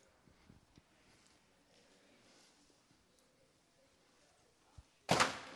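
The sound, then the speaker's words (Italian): A door is shut with one loud, sharp thud that breaks a long stretch of near silence during a lecture. “Chiudo la porta.”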